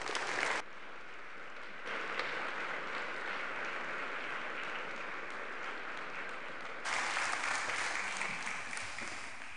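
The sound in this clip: Applause from a church audience welcoming a guest speaker to the pulpit on a Sunday morning. The clapping is broken by a short gap near the start, runs softer through the middle and swells louder toward the end.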